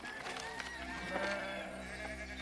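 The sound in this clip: Sheep bleating on a farm, a steady wavering chorus of overlapping calls that holds at a fairly even loudness across the whole stretch, over a dense layered background.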